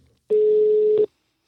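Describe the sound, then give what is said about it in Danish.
A single steady telephone tone sounds during a call to a local utility company: one flat, mid-pitched beep lasting under a second, alone and without voices. “Jeg ringede faktisk til Hillerød Forsyning for en gang skyld og fik fat.”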